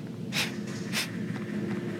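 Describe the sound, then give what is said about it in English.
A person snorting, two sharp, breathy nasal bursts about half a second apart over a low background hum. “Is that someone's dog snorting? No, it's me.”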